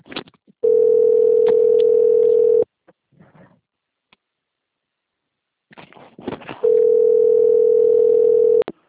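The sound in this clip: Steady telephone dial tone heard while a number is dialed, in two long unbroken stretches separated by a quieter gap with a few faint clicks and rustles. The tone is loud, even and alone, with no voices.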